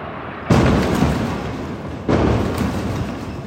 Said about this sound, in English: This is what it sounds like in an area of Gaza City where Israeli soldiers are advancing. They're encircling this coastal city from the north, east, and south, blasting their way through, street by street.